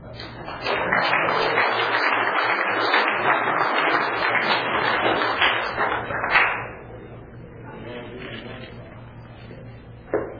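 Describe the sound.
Audience applause welcomes a warm-up speaker at a Tulare County recovery meeting: dense, steady clapping holds for about six seconds, then drops to a quieter, thinner patter.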